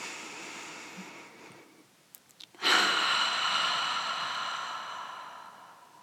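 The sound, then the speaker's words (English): A deep breath during a guided meditation: a soft, airy inhale through the nose, then a few small clicks and a louder, long exhale through the mouth that slowly fades away. “Take a nice cleansing inhale through the nose and release it completely through the mouth.”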